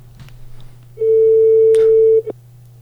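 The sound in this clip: A telephone ringing tone sounds as a call is placed: one steady, mid-pitched tone lasting about a second, then a short blip, over a constant low hum.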